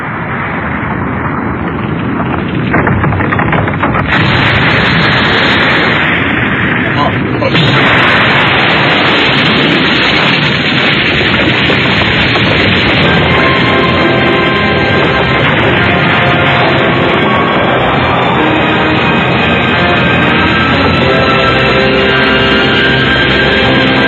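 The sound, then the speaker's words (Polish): Rumbling explosion as a planet quakes in an animated series, a dense, loud, continuous roar that holds at full strength throughout without pause. “Trzęsienie planety?”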